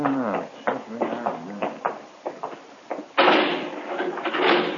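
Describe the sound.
A jail cell door is shut and locked. Muffled voices come first, then a loud burst of broad metallic clattering lasts over a second.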